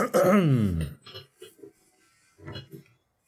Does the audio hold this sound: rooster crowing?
no